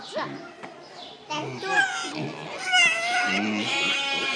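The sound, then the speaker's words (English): Little pigs give high, thin squeals and grunts while playing and biting each other, the cries rising and falling in short bursts as people talk over them throughout. “Little pigs.”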